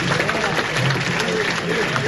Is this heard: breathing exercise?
no